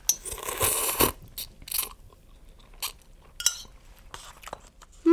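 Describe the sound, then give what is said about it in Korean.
Spicy mixed noodles, bibim guksu, are eaten with clinks of cutlery, bites and chewing in scattered bursts. A brief voiced hum is heard. “비빔국수 먹고 하자.”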